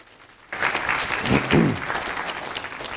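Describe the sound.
Audience applause greets a conference speaker before a Linux kernel talk in Brussels. It bursts in after half a second of quiet and stays as a steady, dense wash of clapping to the end.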